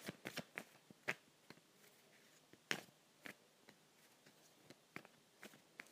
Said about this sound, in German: Und dann mische ich jetzt nochmal. So, und nochmal.